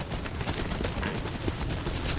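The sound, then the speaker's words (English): Reindeer being herded into an enclosure in Arctic Norway in February make a dense, continuous trampling and rustling noise, with many overlapping soft thuds and no clear pauses. “Reindeer are herded into an enclosure. February in Arctic Norway.”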